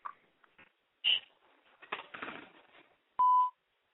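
A voicemail beep closes a phone line's recorded greeting: one loud, steady electronic tone holding for about a third of a second at the very end, after softer scattered sounds.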